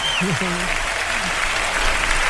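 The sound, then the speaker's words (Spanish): A tremendous ovation for a visiting town mayor: steady, dense applause holds at an even level throughout, with a raised voice calling out briefly over the clapping at the start. “la doctora Carmen Castillo Taujer, a quien saludamos con un tremendo aplauso hasta ahora. ¡Una ovación!”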